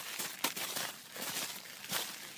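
Footsteps on a walk up to Bunchley's Pond: a few soft, crunching steps at an uneven pace, faint and heard alone.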